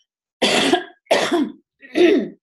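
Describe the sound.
A person coughs three times, harsh and evenly spaced, during an asthma attack. Each cough stands alone with silence between.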